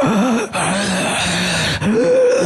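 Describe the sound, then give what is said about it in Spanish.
A voice imitates laboured, heavy breathing: a continuous groaning, wheezy rasp that wavers in pitch and is broken by two brief catches for breath. “Aparte venía respirando así.”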